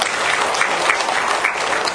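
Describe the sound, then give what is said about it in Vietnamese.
An audience at a Buddhist talk gives a round of applause, dense, steady clapping that carries on evenly for the full two seconds without voices. “Cho một tràng pháo tay nữa.”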